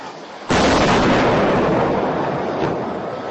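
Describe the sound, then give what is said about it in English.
An Iron Dome interceptor missile launching to intercept a rocket from Gaza: a sudden loud blast, then a sustained rumbling roar that slowly fades. “There's an interceptor missile taking off right now. That is the Iron Dome interceptor. Right there, if you just saw the flash in the sky, that was a rocket coming out of Gaza that was just intercepted right now.”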